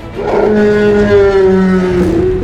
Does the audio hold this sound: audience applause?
no